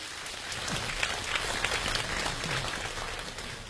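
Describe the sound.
Audience applause at a Chinese crosstalk comedy stage show, steady and dense throughout as a performer is welcomed on.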